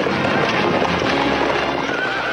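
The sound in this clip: Horses gallop through black smoke past a burning wagon: a dense, loud, continuous drumming of hooves with whinnying mixed in, steady for the whole stretch.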